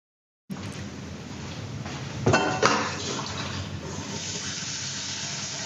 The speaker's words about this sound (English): Yeah, cooking sound. What has a cooking sound to do with the wake word? Why did she record that?